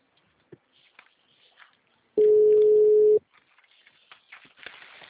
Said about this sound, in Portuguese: Tá chamando